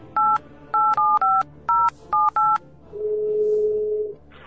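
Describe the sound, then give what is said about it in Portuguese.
A telephone is dialed: several short, evenly pitched touch-tone beeps in an irregular rhythm, then one longer steady tone. The tones are clear and fairly loud, with no talk over them. “Liga pro telefone dele então aí, pera, cara.”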